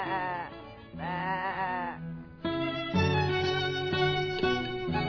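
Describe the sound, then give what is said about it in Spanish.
Sheep bleating: a few loud, wavering, nasal bleats in quick succession, followed by steadier sustained tones. “La oveja.”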